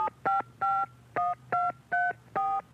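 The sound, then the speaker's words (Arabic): Keypad tones sound as a phone number is dialed: seven short, steady dual-tone beeps in an uneven rhythm, some close together and others spaced apart, with nothing else heard. “وش اسوي؟ خلنا اتصل على ام سهتل”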